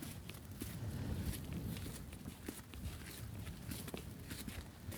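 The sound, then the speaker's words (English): Footsteps walking along an eroded gritstone moorland path with a sandy grit base in the high Peak District, a continuous run of gritty, crunching steps at a steady pace. No one speaks. “So it's really nice walking on this path, isn't it? It's nice eroded grit, basically, isn't it?”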